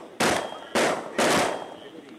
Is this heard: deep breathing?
no